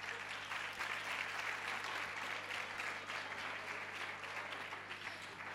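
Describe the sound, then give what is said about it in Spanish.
Audience applause greets the first singers at an evening music event: a dense, even wash of many hands clapping that holds steady throughout, with no single voice standing out. “Un aplauso, chicos, un aplauso.”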